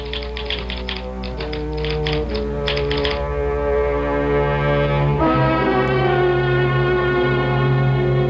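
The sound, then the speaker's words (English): An office typewriter typing out a list of names clacks in a quick run of sharp keystrokes during the first few seconds, beneath sustained music that continues alone afterward. “I have his book here, and I can just type the names for you.”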